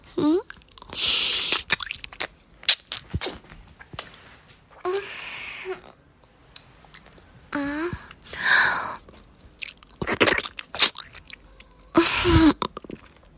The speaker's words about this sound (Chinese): 我在吃冰淇淋